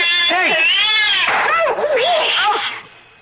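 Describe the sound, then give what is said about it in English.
A cat yowls loudly in long, wavering caterwauls, its pitch swooping up and down through a few drawn-out cries before fading at the end. “Keep that cat away from us.”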